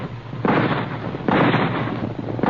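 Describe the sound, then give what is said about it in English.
Two loud rifle shots come one after the other, each a harsh blast with a long, rough decay. No voices are heard. “At the sound of the rifle shots, the frightened caribou raised their antlered heads and began to run.”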